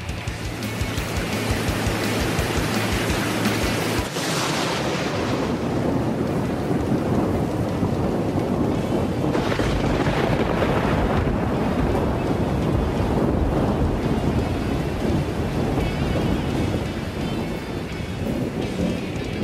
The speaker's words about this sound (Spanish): ¡Me estoy mojando! ¡No me gusta el agua! ¡Los peces se están mojando! ¡Corred a salvarlo! ¿Pero qué coño ha pasado? ¡Se han activado los aspersores antiincendios!